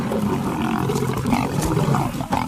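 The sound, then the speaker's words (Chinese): Lions roar and snarl as a male breaks up a fight among lionesses. Loud, dense growling and roaring carries on without a break and no one speaks. “公狮原本只想吃东西，现在却不得不去平息母狮间的冲突。”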